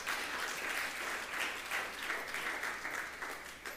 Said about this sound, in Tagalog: Palakpakan mo yung Panginoon. Come on.